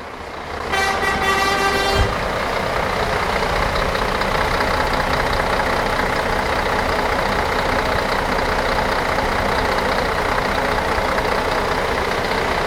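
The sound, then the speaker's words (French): Exhaust rumble of a German metal band's tour bus, a loud steady idling engine that runs unbroken for the whole clip, with a brief tonal toot near the start. “Je vais aller te faire écouter le bruit d'un pot d'échappement de tourbus.”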